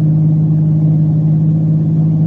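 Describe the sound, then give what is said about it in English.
A car engine drives through city streets in Miami, giving a constant, loud, low rumbling drone that stays even in pitch throughout, with no voices. “We just can't keep driving around the streets of Miami.”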